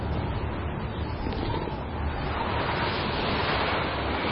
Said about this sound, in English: we gotta get this kid out of the wind!